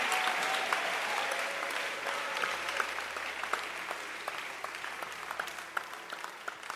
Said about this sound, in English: Clap your hands for the most important man in the church this year.